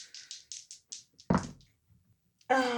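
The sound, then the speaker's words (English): A twenty-sided die rattles across a table in a run of quick light taps, followed by a heavier thunk and a few fading clicks, before a voice starts at the end. “So basically I'm rolling a d20 and twice.”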